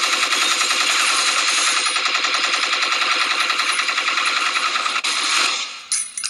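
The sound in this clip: Rapid automatic gunfire aimed at people: a long, unbroken, loud burst of fast repeated shots lasting about five seconds, then breaking off into a few scattered bangs.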